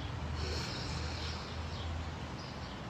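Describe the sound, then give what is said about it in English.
A slow, deep breath drawn in, heard as a soft, steady airy hiss that lasts about three seconds, with no talk over it. “My favorite technique is to close your eyes and breathe in for 4 seconds and out for 4 seconds, which I invite you to join me in now if you would like to.”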